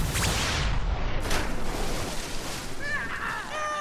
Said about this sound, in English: Here, Agent, try this ammunition. I just whipped it up.